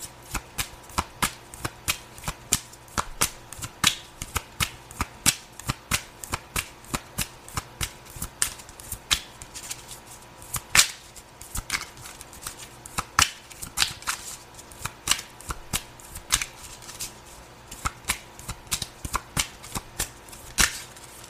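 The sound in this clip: Tarot cards being shuffled over and over, with many crisp snapping clicks in an irregular, busy rhythm and no talk.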